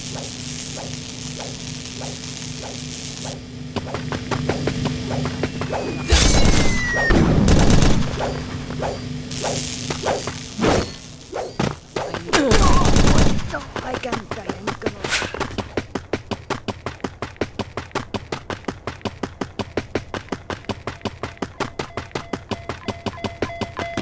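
Rapid machine-gun fire in a video game: a fast, regular stream of sharp shots, broken by a few louder, heavier noisy blasts. It ends with a long, steady run of evenly spaced rounds.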